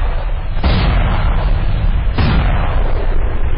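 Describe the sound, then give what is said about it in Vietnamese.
81 mm mortar shells exploding around the base of a cone-shaped hill in wartime: a continuous heavy, loud rumble with two sharper blasts standing out about a second and a half apart. “Tiếng Hồng bị ngắt bởi những tiếng nổ của đạn cối 81 ly. Địch bắn hú hòa xung quanh chân đồi chóp nón.”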